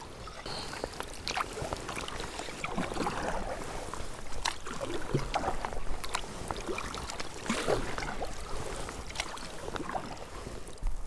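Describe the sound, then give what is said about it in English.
Kayak paddling on water while heading back to shore: continuous soft sloshing and irregular small splashes from the paddle strokes, with no voices. “Just paddling back into the shore. Leave my kayak down here, ready for when I depart.”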